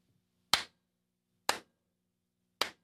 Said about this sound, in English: I can go way over here and clap my hands.